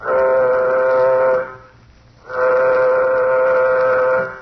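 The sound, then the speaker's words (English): A warning signal sounds aboard a spaceship in a radio drama: two long, blaring, horn-like blasts rich in harmonics, each held for well over a second and separated by a short quiet gap. “The moment has arrived. Sound warning signal. Sound warning signal.”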